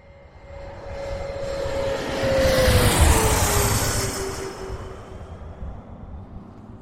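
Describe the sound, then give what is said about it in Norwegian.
Airplane coming in to land, its engine roar swelling to a loud peak and then fading, with a thin whine that slowly slides lower in pitch as the plane passes. “Det er på tide å feste sikkerhetsbeltene, rette opp setet og sikre fri sikt ut av vinduet ettersom flight 145,5 går inn for landing.”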